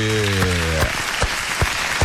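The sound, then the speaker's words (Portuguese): Applause from the back of an auditorium: sparse, sharp claps spaced in a loose steady rhythm, thin rather than a full ovation, following a brief held tone. “ó, e essa palma é de fundo do auditório aí, ó.”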